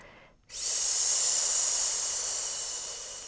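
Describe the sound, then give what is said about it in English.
A deep breath in a guided breathing exercise: after a brief quiet moment, a loud, steady, high-pitched airy hiss begins and holds, easing slightly toward the end. “Inhale, courage, and exhale, let go.”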